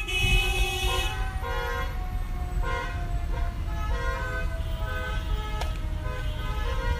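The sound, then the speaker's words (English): Car horns honk during a parade procession through the Calumet neighborhood of East Chicago at the annual Calumet Day celebration. Several sustained horn tones overlap and shift over a steady, dense rumble of vehicles. “What you're hearing is not an urban rush hour scene, but instead a parade procession through East Chicago's Calumet neighborhood.”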